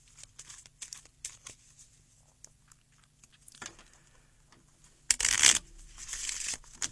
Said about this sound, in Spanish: Vamos a pegarle la última barajita aquí a las cartas.